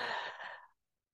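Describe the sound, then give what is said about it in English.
A single deep breath exhaled as a long, airy sigh, strong at first and then tapering to silence within about three-quarters of a second. “I just want you to take a deep breath in.”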